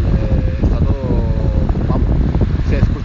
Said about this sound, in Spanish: espero que el, viento no sea un problema porque creo que hace un poco de viento